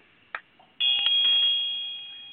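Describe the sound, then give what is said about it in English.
A ritual bell rings during a pagan summer solstice festival ceremony. A brief click comes first, then a single bright, high bell tone that sustains and slowly fades over more than a second, with no voices. “Now, Field rings the bell,”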